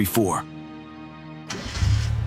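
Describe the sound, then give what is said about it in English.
A car engine starts as a teen sets off on a first solo drive: a brief voice, a steady hum, then a loud burst as the engine catches and revs on. “There she goes, first solo drive.”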